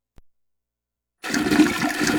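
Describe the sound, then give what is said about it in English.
A toilet that fails to flush properly: a single faint click, a short silence, then a loud, steady rush of flushing water that continues to the end. “Big damn it, the flushing ain't a flushing.”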